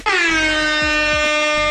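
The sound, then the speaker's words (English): An air horn sound effect gives one long, loud, steady blast with a bright, brassy tone that holds at the same pitch from start to finish. “And then cue the air horn.”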